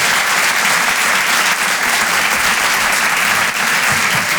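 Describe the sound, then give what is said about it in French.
Loud, dense applause from a comedy club audience at the Apollo Théâtre in Paris, a sustained roar of clapping that holds steady throughout with no voices heard over it. “Faites du bruit pour Harold Barbet.”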